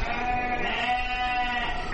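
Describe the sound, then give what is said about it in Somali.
Sheep and goats bleat at a livestock market in Djibouti, their calls overlapping in a steady, dense chorus with no pauses. “Haddaba V O A ayaa soo booqatay saylada xoolaha ee Jabuuti.”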